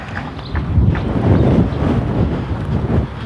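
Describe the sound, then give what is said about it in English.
Wind blowing along a cross street, buffeting the microphone with a low, rumbling roar that gusts unevenly and never settles. “Oh yeah, wind on a cross street. Yahoo! Blowing dirt in my eyes.”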